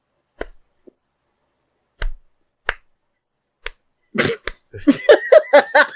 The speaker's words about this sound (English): because there's only like members of the press and maybe like four people in the audience. And like two of those are clapping.